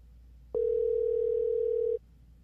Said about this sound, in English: Third ring, they don't answer. All right, we'll see if it goes to voicemail.